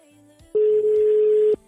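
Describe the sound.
A telephone ringback tone during an outgoing call sounds as one loud, steady, mid-pitched tone lasting about a second, with a faint, quieter tone before it.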